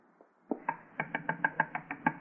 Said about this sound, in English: I better go up and knock on the door.